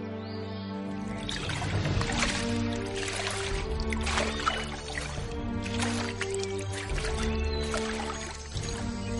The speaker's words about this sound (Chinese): 好，那就把它脱下来顶在头上，踏在水上走去吧。